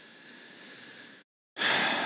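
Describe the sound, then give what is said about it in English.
A deep breath: a soft, steady airy hiss, a brief moment of silence, then a louder, brighter rush of breath that cuts off. “I took a deep breath because I wasn't sure what I wanted to say after that.”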